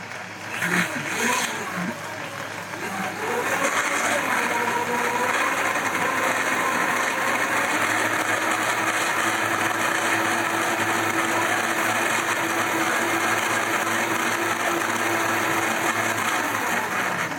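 A blender runs on high, pureeing a mix for meatballs, with a loud, steady whirring drone that builds briefly at the start and then holds evenly for the rest of the run.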